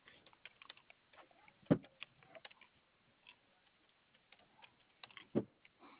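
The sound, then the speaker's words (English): Computer keyboard typing as an order is typed up, quiet scattered key clicks with two sharper, louder strikes standing out, no talking. “Okay, sir, let me just finish getting this typed up so we can go ahead and get you on and moving.”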